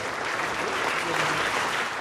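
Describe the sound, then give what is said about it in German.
Friendly applause for Pope Benedict XVI in the Salle des Fêtes, where he meets representatives of state and government; steady, dense clapping from many hands holds at an even level throughout. “Dann freundlicher Applaus für Benedikt in der Salle des Fêtes, wo er Vertreter von Staat und Regierung trifft.”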